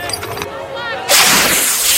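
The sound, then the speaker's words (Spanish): A distress flare fired and bursting: after a brief voice, a sudden loud hissing blast erupts about halfway through and keeps roaring as a broad, rushing hiss to the end. “Una bengala sale disparada. Estalla como una palmera de luz.”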